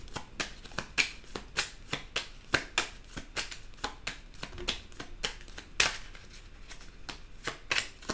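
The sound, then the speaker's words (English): A deck of tarot cards being shuffled to draw one: many quick, soft riffling and slapping strokes in an uneven, steady rhythm, fairly faint, with no talking. “From the Under the Roses deck. May I have a card for Aries, please? May I have a card for Aries?”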